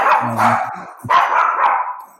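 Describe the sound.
A dog barks during an online webinar, giving a few loud, high yelping barks with a whiny edge, heard alone with no talk over them.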